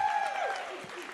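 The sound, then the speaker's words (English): An audience applauds in a dense, steady wash of clapping that holds an even loudness through the short clip. “Everybody give April a big round of applause.”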